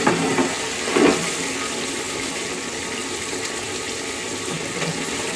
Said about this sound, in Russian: берет телефон и спускает воду в бачке.